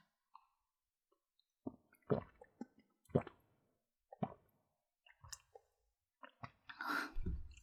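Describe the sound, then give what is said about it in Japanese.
Someone drinks water in quiet, sparse sips and swallows. The faint wet clicks and small gulps are spaced irregularly, with a somewhat louder, longer stretch at the end and no talk. “お水飲んでいいですか？お水飲みます。”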